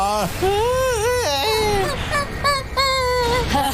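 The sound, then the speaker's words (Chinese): Loud wailing cry with a quavering, rising and falling pitch, carried through the whole stretch in sobbing, breathy phrases. “嘿，怎么回事儿？我们为什么会哭啊？”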